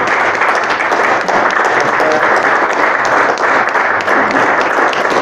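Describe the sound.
Steady applause from a group welcomed at a gathering, dense and even clapping held at a constant loud level across the whole stretch without a break.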